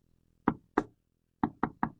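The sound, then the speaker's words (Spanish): Knuckles rap on a door in a pattern: two knocks, a short pause, then three quicker knocks, crisp and isolated against silence. “Tocaba la puerta, tienes que tocar.”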